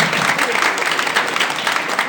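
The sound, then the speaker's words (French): Audience applause in a church, dense steady clapping from many hands that fills the whole moment without a break. “Allez, on peut applaudir, tout le monde.”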